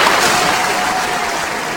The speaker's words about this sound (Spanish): Bravo, un aplauso, un aplauso.